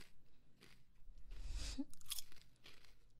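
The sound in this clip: A seaweed-flavored snack is crunched and chewed, giving a few crisp, faint crunching bites with soft chewing between them.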